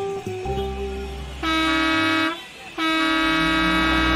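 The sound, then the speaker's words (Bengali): A bus horn honks as the bus arrives. Two long, loud, steady blasts are heard over a low engine rumble, with a short pause between them. “আরে বাসও এসে গেছে”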